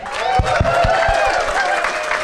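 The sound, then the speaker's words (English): Live show audience applauding as the host comes on stage, a sustained wash of clapping and crowd noise at a fairly loud, even level throughout. “So if we could put our hands together, welcome to stage, it's Dick Griblett!”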